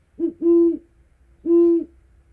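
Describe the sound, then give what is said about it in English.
A great horned owl gives three deep, resonant hoots: a short one quickly followed by a longer one, then a pause before a final long hoot, all low-pitched against near silence. “The great horned owl is famous for its deep, resonant hoots.”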